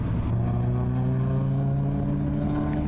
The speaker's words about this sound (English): Golf R going way wide on turn 7. He came in super hot.